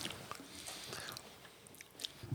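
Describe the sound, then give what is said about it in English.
Crunchy biting and chewing of a chili cheese flavored potato chip: a few crisp bites followed by steady, faint mastication with a dry, crackly texture and no talk. “It tastes like the chili cheese Fritos. Just on a potato chip.”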